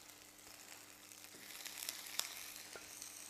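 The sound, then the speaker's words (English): Sausages pan frying give a quiet, steady sizzle with scattered small crackles and pops, alone with no talk. “With the sausages, you just pan fry them. And you want them to go a sort of brown color.”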